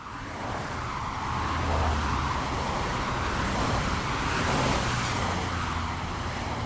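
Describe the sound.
Road traffic from combustion-engine cars makes a dense, continuous roar of engine rumble and tyre hiss. It swells gently twice as vehicles seem to pass, and no voices are heard.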